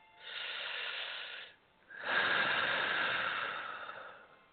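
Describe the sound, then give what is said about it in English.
Two slow, airy breaths during a guided breathing exercise: a shorter rush of air, a brief pause, then a longer, steady breath that gradually fades. The breaths are soft and heard alone, with no talk. “Eyes closed. Exhale. Inhale. Now exhale. Inhale.”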